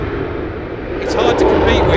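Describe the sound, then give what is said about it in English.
Hornet military jet flying past at an air show, a broad rushing roar that grows louder toward the end, with a person talking over it. “I've got the nasty feeling that'll be quite noisy again. I think that's the general idea. There's lots of kids here with their fingers in their ears. We've seen some of the old planes with the word cat at the end. This one, the Hornet.”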